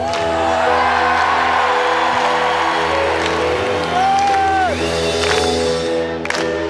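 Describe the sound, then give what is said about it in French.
A stadium concert crowd sings along with the singer in one voice, a loud, continuous mass of voices mixed with cheers and whoops that keeps the same high level throughout. “Le public fait corps avec le chanteur, reprenant chaque chanson d'une seule voix.”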